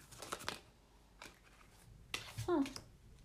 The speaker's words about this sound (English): I'm gonna pull maybe another card or two to ask that.